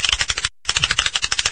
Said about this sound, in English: Shuffle the cards.